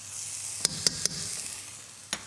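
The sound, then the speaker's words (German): Vegetables sweat in butter in a pan with a soft, steady, low sizzle, broken by four brief, sharp ticks, three close together and one a little later. “So, wir schwitzen das leicht an. Ich gebe schon etwas Butter noch hinein.”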